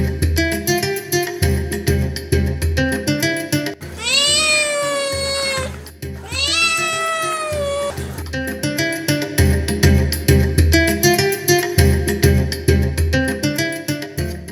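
Two long, wavering cat meows, each drawn out for about two seconds, rise clearly over steady background music that plays throughout.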